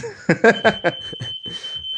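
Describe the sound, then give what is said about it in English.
A smoke alarm set off at home gives a steady, piercing high-pitched tone. It starts early and holds to the end while a voice talks over it. “did he just set a fire off? No, my wife just set the fire alarm off. There it is.”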